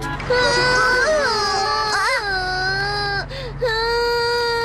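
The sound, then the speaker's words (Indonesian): A child cries in sustained, high wailing sobs whose pitch bends up and down, with a brief break near the end before the crying resumes. A low steady hum sits underneath. “Apa yang terjadi? Kenapa kau menangis?”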